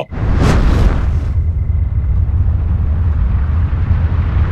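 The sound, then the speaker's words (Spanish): Flamethrower blasting a jet of flame at books stacked against a wall, a dramatized effect: a sudden loud, hissing whoosh in the first second settles into a heavy, sustained roar that runs to the end. “Un chorro llameante salió de la boquilla de lanzallamas y golpeó los libros contra la pared.”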